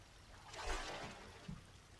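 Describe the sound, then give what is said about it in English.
Soft water sounds as someone washes another person's body: a faint, gentle pouring and swishing that swells early, tapers off, and ends with a small dull knock. “What am I doing? Why, I'm washing the front of your body. I know you can reach it, but isn't it nicer when a friend does it for you?”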